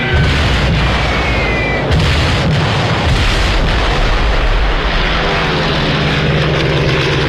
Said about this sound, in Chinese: 斯图卡式俯冲轰炸机装备有警报器，训练有素的飞行员在下降过程中必须忍受住高压，并在最后一刻向目标精确投放炸弹。